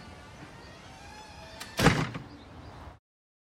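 A door opening after an intercom buzzer, heard as one dull, loud clunk midway through over a steady low background hum, which then fades out.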